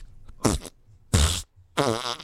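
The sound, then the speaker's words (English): Three loud, buzzy fart noises burst out one after another with short quiet gaps between them. Each is a sputtering, rumbling blast, and the last runs longest. “why don't you come over here and fart in my wallet so I'll have some gas money”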